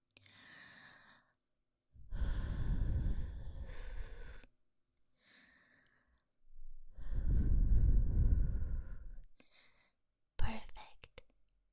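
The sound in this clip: Breathing sounds: two long, loud, breathy exhales like heavy sighs, with fainter breaths between them and a short, sharp breath at the end, without speech.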